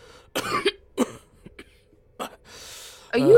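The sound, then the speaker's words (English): A few harsh, throaty coughs come in short separate bursts with pauses between them. They are fairly loud, and the final burst is the strongest. “can you help with his cough?”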